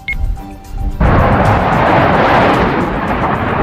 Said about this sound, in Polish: Za oddanie pierwszego strzału z wyrzutni Patriot byli odpowiedzialni przeciwlotnicy z dywizjonu rakietowego z Sochaczewa.